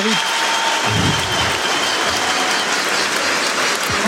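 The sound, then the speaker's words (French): Stadium crowd ovation for a football goalscorer as he is substituted late in the match, a steady roar of applause and crowd noise with a voice talking over it. “Écoutez l'ovation pour le buteur Sekou Mara.”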